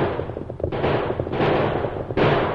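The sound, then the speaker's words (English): Gunfire in a chase scene, with a few heavy booming shots over a dense, rumbling wash of noise. “Use your guns.”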